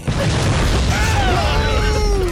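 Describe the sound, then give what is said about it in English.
Dynamite explodes in a video game, a loud, sustained rumbling blast with crackling noise that holds steady throughout, while thin whistling tones sweep across it. “This whole fucking forest is filled with dynamite. I'm about ready to blow the roots out of these trees.”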